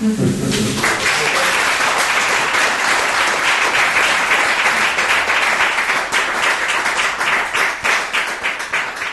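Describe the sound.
Audience applause after a poetry reading: dense, steady clapping from many hands fills all nine seconds, easing slightly toward the end.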